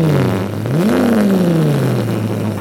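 A car engine revs as the pedal is kicked in a parking lot, a loud growl whose pitch climbs quickly and then slowly sinks back, heard alone.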